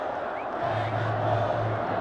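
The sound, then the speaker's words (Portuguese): Grêmio supporters chanting Renato's name in protest at their stadium, heard as a steady, low crowd roar with a sustained droning tone of massed voices running through the middle. “Renato, torcida do Grêmio grita Renato.”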